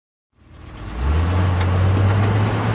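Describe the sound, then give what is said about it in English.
A Komatsu D355A bulldozer engine starts up, its noise building over about a second into a steady, loud, low rumble that holds to the end. “When you invited me to check out your new ride, this isn't what I was picturing. Listen, Greg, I've had it with the wussy Nissan Versus. The Komatsu VD355A bulldozer is who I really am as a commuter.”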